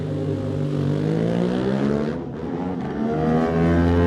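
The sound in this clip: An Aprilia 660 racing motorcycle setting off at a road race start, its engine a loud, steady rasping note that briefly dips midway before the revs build again.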